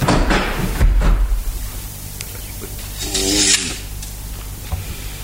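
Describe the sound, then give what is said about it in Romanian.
A wooden chapel door being closed: a dull low thud early on, then a stretch of creaking and grinding from the moving door, with a faint rubbing scrape near the end. “Închide-ți ușa capelei.”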